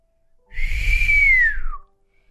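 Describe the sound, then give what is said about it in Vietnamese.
A man whistles once: a single clear, fairly loud tone that holds steady, then glides downward at the end before stopping. “Hắn huýt gió một tiếng.”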